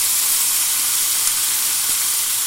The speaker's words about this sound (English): What I'm now going to do is all my bacon and mushrooms and garlic and shallots. And I'm going to pop all those back in the pan.